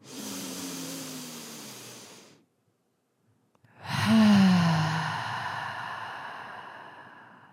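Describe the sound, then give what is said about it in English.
Deep breaths in and out during a guided breathing exercise: two long, loud, breathy exhalations with a soft voiced sighing tone, separated by a short silence. “So I'm going to start by counting to three, and we're going to do three deep breaths in this way.”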